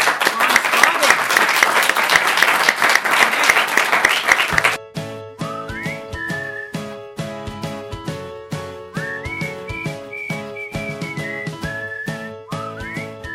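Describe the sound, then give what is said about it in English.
Audience applause, loud and dense clapping for about five seconds, then cuts off and gives way to music with a whistle-like melody over a steady beat. “Huge round of applause for Ron”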